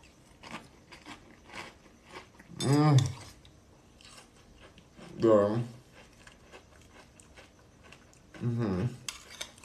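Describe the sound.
Someone chews organic cinnamon crunch cereal with almond milk, making many soft, crisp crunches and clicks. Three brief voiced murmurs come between the mouthfuls.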